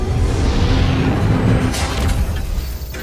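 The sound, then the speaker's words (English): A starship's warp drive engaging in Star Trek: Discovery: a loud, dense roaring rumble that holds steady throughout, with a brief brighter surge partway through. “We are clear of the gravitational well. Re-engage warp drive. Get us the hell out of Dodge, Mr. Saru.”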